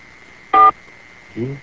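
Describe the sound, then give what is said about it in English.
A telephone number is touch-tone dialed: a single short, bright key beep sounds over a steady high tone on the line, followed by a brief, quieter low sound. “Okay, we'll try it one more time. Watch me dial”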